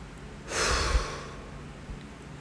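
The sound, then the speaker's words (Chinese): A single deep breath taken as a calming breathing exercise: a broad, airy rush that swells for about half a second, then thins into a faint, quiet tail with no talk. “开始可以先让自己呼吸三秒钟， 嗯，深呼吸。”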